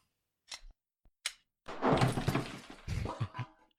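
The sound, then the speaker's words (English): Call of Duty video game sounds play: a few short sharp clicks and thuds with silence between them, then a dense, loud burst of noisy crashing impacts that slowly thins out. “I love the COD noises in the background too.”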